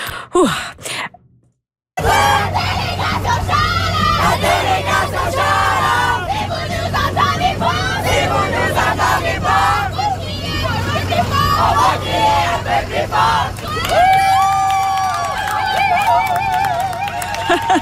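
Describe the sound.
A large crowd cheers and babbles at the opening of the 45th Jeux de l'Acadie finals in Edmundston, New Brunswick. A brief sound and a short silence come first, then a dense, continuous roar of voices over a steady low hum.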